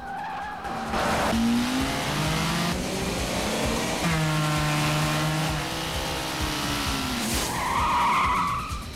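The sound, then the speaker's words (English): Tires squeal and skid as a black car in a high-speed chase narrowly misses an oncoming vehicle. Several long, loud screeches slide in pitch over a steady engine roar, with no voices. “The black car narrowly misses an oncoming vehicle.”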